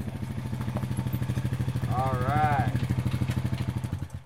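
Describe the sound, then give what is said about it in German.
Quad bike engine rattling across a dusty yard, a steady fast chugging pulse that holds at the same level throughout, with a brief voice-like sound rising over it midway. “knattert auf ihrem Quad auf den staubigen Hof und hält vor dem Pferdestall.”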